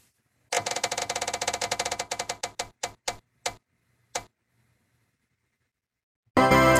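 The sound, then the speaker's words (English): A prize wheel spins with rapid clicking ticks that gradually slow and spread apart until the wheel stops, followed by a short, loud burst of sound. “Now let's spin the old wheel of dilemmas, is what I call it.”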